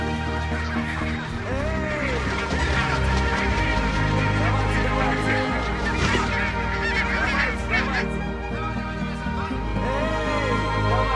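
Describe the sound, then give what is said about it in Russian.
A flock of geese honks loudly as the birds run and take off, a dense, overlapping chorus of repeated nasal calls that carries on without pause throughout. “За ними сначала бегут, а потом взлетают гуси.”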